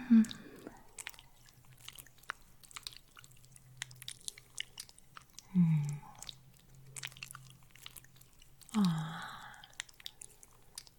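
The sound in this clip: A vampire bites and slurps at a neck: quiet, wet chewing and sucking noises, broken by three louder, low, moaning swells.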